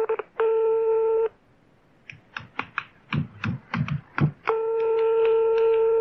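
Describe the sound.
Telephone dialing a call to a karaoke venue: a steady line tone, a quick run of many short keypad tones, then a long steady tone.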